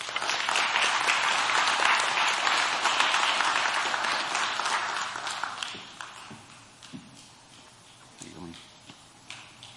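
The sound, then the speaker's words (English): An audience applauds as people are called up one by one. Loud, dense clapping lasts about five seconds, then thins to a few scattered claps while a man talks. “You guys can applaud him as they come up.”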